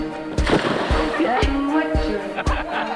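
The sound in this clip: A watery splash as a woman jumps into a swimming pool, with sloshing water and sharp bursts over a steady, tonal background.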